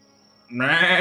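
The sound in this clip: A person's voice imitates a goat bleating: one loud, wavering, nasal bleat that swells in after a faint lead-in and holds for about half a second.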